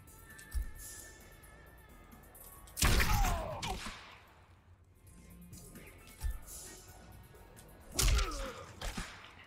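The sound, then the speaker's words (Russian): Axe strike attack in the fighting video game Mortal Kombat 11: two heavy whooshing thuds with a slashing swish, surrounded by a few smaller knocks and impacts. “Топорный удар называется.”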